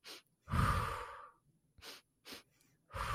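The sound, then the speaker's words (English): Slow, deliberate breathing in a calming exercise: several audible breaths, one long airy breath followed by shorter, softer ones separated by brief pauses, heard alone without talk. “I put my hand on my heart, my hand on my belly. I breathed in for two strokes, out one, like this.”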